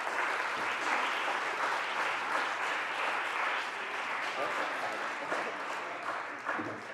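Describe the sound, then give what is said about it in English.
Applause in a state Senate chamber welcoming a senator's daughter as a guest on the floor: dense, steady clapping from many hands that holds at an even level throughout, tapering slightly near the end. “I'd like to introduce Senator Ashby's daughter, Aaliyah Trinity Ashby. Let's give her a warm Senate welcome.”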